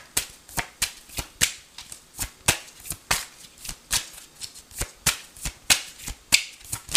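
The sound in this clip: Tarot cards being shuffled by hand: many sharp, crisp snaps and riffles follow one another in a quick, fairly even rhythm, loud and alone with no talking.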